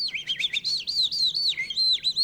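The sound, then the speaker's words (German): A man imitates a bird call in his living room, producing a continuous high, warbling string of chirps and whistles that swoop up and down in quick, repeated phrases with no talking. “Hier in seinem Wohnzimmer kann er die Natur nicht durcheinander bringen, wenn er einen Vogel imitiert.”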